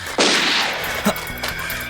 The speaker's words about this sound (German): Die schießen auf mich wollen mich umbringen.